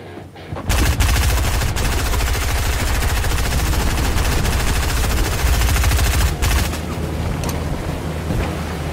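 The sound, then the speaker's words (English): Sustained, rapid automatic gunfire from a gun erupts after a brief quiet start and pounds on loudly as continuous rattling bursts, dipping slightly near the end. “Whoa, is that a gun? Where'd you get that?”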